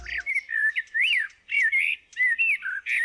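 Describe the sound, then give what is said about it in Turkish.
Common blackbird singing a clear, fluting song of varied whistled phrases with short pauses between them, loud and alone without talk. “Dinlediğiniz Kara Tavuğun Sesi.”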